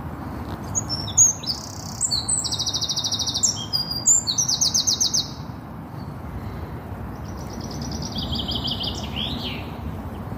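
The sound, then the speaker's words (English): Several birds sing in woodland, overlapping high chirps and whistled phrases, with a quick run of repeated notes in the first half and softer twittering afterwards, all over a steady low rumble. “Well, that one, there's several birds in there.”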